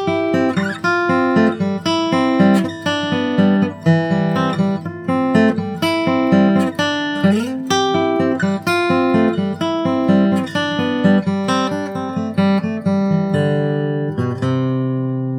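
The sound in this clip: String instrument playing a tag lick, moving a chord while sounding a note on the third string; bright plucked notes and chords ring in a quick, steady rhythm with occasional sliding pitches, loud and alone without voices.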